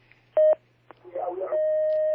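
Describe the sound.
Telephone line tones as an incoming call connects on a call-in line: a short tone burst, a brief murmur of voice, then a steady sustained tone that holds to the end.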